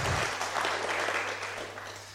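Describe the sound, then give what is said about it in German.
Audience applause at a live event: dense, steady clapping fills the whole two seconds and eases off slightly toward the end, with a low constant hum beneath. “Gebt Ronald auch nochmal einen Applaus, der ist richtig Hammer.”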